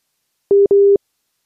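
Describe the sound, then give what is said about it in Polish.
A busy tone sounds after a dropped phone connection: two loud, steady electronic beeps in quick succession, the second longer than the first, followed by silence. “O, niestety się nie udało. Coś chyba zerwało nam się połączenie”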